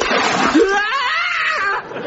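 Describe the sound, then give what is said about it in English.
Water thrown at a chimney splashes in a broad, rushing burst lasting under two seconds, with a person's rising and falling shout cutting over it before it stops. “Right, I've got the water. Well, try and get it inside the chimney this time. Right, here goes then.”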